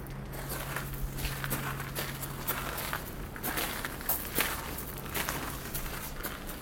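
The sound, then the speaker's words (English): Footsteps walk between rows of casks in a damp cellar, many steady, even steps. “Now, please walk forward between the rows of casks and then pause in front of the screen on your left.”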